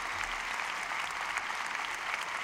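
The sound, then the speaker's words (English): Audience applause for a stage sound and lighting crew at a live event, a dense, steady wash of many hands clapping that holds at an even, fairly loud level throughout without a clear start or finish. “this incredible sound crew is moving like the speed of light. And I think while they're here giving their best side to the audience, we should give them a big hand.”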